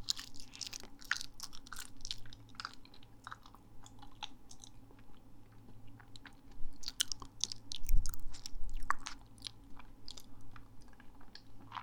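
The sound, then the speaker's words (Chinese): Someone chews and bites food while eating, with many soft, crunchy bites in an uneven rhythm. It is quiet, with no talk, over a faint low hum. “马上吃完了，吃完了这个我要看一下，我吃了多久，不然就吃第二个。”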